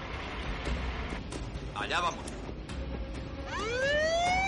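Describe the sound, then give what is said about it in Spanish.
An ambulance siren starts up as the ambulance and a truck set off in a crime thriller heist scene. A wailing tone rises in pitch near the end over a dense, steady background rumble. “La ambulancia y el camión se ponen en marcha.”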